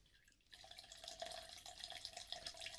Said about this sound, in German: Redet weiter, während ich mir Getränke einschütte.